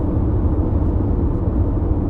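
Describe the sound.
Car driving, with a steady, dense low rumble of engine and road noise that continues without a break and without voices.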